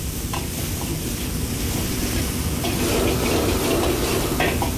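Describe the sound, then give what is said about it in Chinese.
Aromatics stir-fried in a pan over low heat give a continuous sizzle, with scattered light scrapes and clicks of stirring over a steady crackle that builds slightly toward the end. “继续开小火把料头炒出香味和颜色。”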